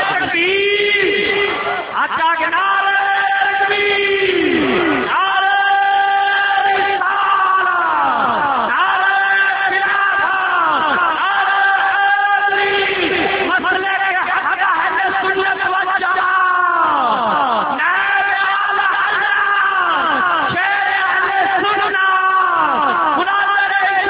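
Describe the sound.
Massed voices at a religious gathering chant slogans in repeated phrases, each line falling in pitch. The chanting stays loud and sustained throughout, with a steady rhythmic cycle of call after call.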